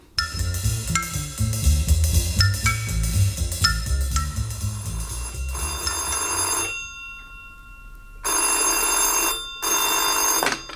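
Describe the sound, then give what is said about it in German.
Telephone bell ringing with an incoming call in a bachelor flat, three loud, shrill ringing bursts separated by short pauses, following music that fades out. “Also, Mr. St. John erhält einen Anruf.”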